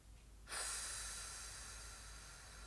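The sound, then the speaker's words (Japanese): A slow, steady exhale during a breathing exercise: a breathy, airy hiss that starts abruptly and holds for about two seconds, fading only slightly toward the end. “吐き切ることが大事ゆっくりまた吸って背筋と笑顔キープです吐きます”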